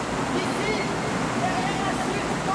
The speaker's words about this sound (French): Ici, derrière la chute d'eau.